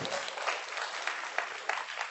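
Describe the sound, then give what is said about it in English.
Round of applause from a church gathering during a sermon: dense, steady clapping that holds at an even level throughout. “Give these people a round of applause.”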